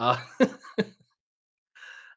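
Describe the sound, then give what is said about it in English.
Someone chokes and coughs three times in quick succession, each cough sharp and harsh, then a brief silence before a faint breathy exhale. “No, like, I'm choking. Excuse me.”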